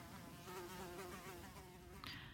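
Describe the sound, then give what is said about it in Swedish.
Angry bees buzzing in a continuous, steady drone with a low, reedy hum, loud and unbroken throughout, with no voices. “Vid ett tillfälle får de utmana sina rädslor genom att gå fram till ilskna bin.”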